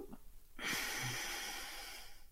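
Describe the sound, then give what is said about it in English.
A single deep breath, soft and airy, rising into one long breathy rush that lasts about a second and a half before fading. It is faint and heard alone, without talk. “Take a deep breath in. Hold it at the top and let it go.”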